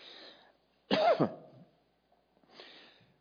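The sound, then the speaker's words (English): A single harsh cough from someone who got something down the wrong pipe, a short raspy burst with a throat-clearing edge, framed by quieter breathy exhales before and after. “Excuse me. Got one down the wrong pipe.”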